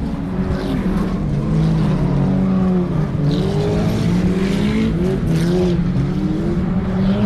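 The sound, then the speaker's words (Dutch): Stock cars race on an oval track in the UK, their engines a loud, continuous roar whose pitch wavers and shifts as the cars circle, with no break for the whole stretch. “Maar ze zijn weer aan het racen.”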